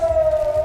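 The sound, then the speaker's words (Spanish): Air raid siren wails in Israel before dawn after an interception of missiles launched from Iran: one loud, steady, sustained tone holding a constant pitch over a low rumble throughout a brief snippet, with no voices. “Es el sonido de las sirenas que saltaron después de que se interceptara el lanzamiento de misiles desde Irán.”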